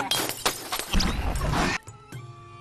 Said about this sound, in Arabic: فهو اداني شاكوش، قال لي اضرب اضرب